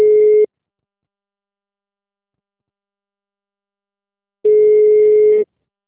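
Telephone network tones follow a call that could not be completed: a short steady mid-pitched beep at the start, silence, then a longer identical beep about four seconds later.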